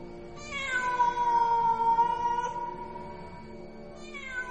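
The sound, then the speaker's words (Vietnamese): A black cat gives a long, drawn-out meow that holds a steady pitch for a couple of seconds and trails off, then begins another meow at the very end, with no talking. “có tiếng ngoao ngoao cất lên. Một con mèo toàn thân đen óng đủng đỉnh từ trong phòng đi ra, nhảy tót lên ban công.”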